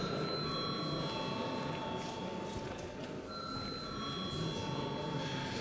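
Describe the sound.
A bell rings in a parliament chamber with a continuous, even electric ring and a steady metallic buzz at a constant level throughout.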